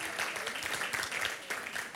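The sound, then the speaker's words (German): Faint, steady audience applause at a Christian gathering, heard as a soft, continuous patter of many hands. “Yes, lasst uns den beiden noch mal einen Applaus geben.”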